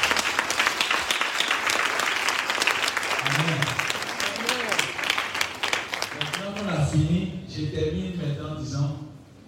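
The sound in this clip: An audience applauds and cheers for Jesus Christ during a church service: dense, loud clapping fills the first several seconds, then voices shout and call out over fading applause.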